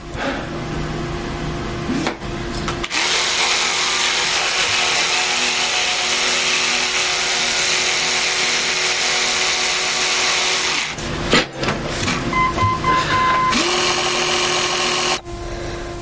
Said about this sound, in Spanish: Luego se mira al espejo y sigue lavándose los dientes.